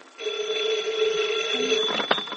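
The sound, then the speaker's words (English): A telephone ringing with a steady, bright, buzzing tone that holds for about two seconds, followed by a short sharper clatter near the end. “there's a phone.”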